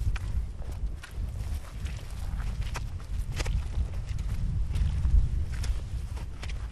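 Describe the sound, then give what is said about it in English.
Squelchy footsteps cross a turf bog in a steady rhythm of soft, wet, low thuds that keep going throughout at moderate loudness. “Sort of squelchy, isn't it? It is. At this time, it doesn't feel too different from walking on a farm. But some of the time, there's low spots in the bog,”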